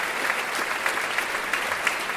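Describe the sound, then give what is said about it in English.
An audience applauds in a thick, sustained wash of clapping, with a few sharper claps standing out now and then. “Give her a huge cheer.”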